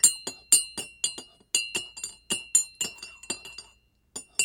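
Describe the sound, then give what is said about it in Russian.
A spoon clinks against a glass while soap is stirred into water. Many bright, ringing taps follow in a quick, fairly steady rhythm, with a brief pause before the last few and no talk. “В другом стакане разведем в воде немного мыла.”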